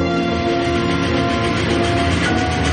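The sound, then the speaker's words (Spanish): Steady, loud rumble of a train passing through a tunnel, a dense mechanical roar with a humming tonal undertone that holds evenly from start to finish. “Un tren atraviesa un túnel.”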